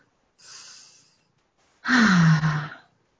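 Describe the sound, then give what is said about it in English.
A slow, airy breath in, then a louder sighing exhale with a low voiced tone that drops slightly in pitch, taken during a guided group breathing moment on a community prayer call. “we'll take a nice deep breath in.”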